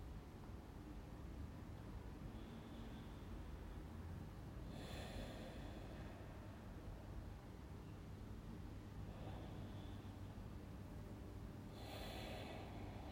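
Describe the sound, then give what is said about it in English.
Slow, deep breaths taken during a quiet moment of personal spiritual reflection: two soft, airy inhale-exhale hisses, each lasting about a second, spaced several seconds apart over a faint steady background hiss, with no talking. “Again, I take a few breaths.”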